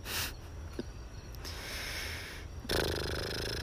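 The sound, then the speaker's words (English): Deep breathing: a few slow, airy breaths drawn in and pushed out, loud and alone, with a stronger, brighter breath near the end. “I'm gonna breathe a few times. You're gonna hear the breathes, the breaths.”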